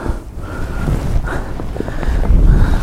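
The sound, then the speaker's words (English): Strong wind blows and buffets the microphone in a steady, low rumbling roar. It gusts louder toward the end. “I can't believe this wind.”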